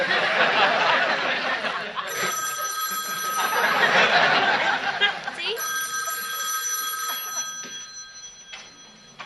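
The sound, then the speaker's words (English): Telephone ringing in a steady, high electronic trill that begins after people talk and laugh, then repeats in a few bursts with short gaps. “Now Mr. Furley calls and he asks what all the noise is about”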